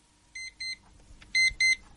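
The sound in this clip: An alarm clock beeps four times in two pairs of short, high electronic tones, with the second pair noticeably louder than the first.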